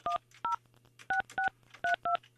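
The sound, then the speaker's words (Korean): Telephone keypad dialing sounds out six short DTMF beeps as a phone number is entered, spaced in rough pairs with brief gaps, over a faint steady low hum. “자 다시 8580번 8580번님께 전화합니다.”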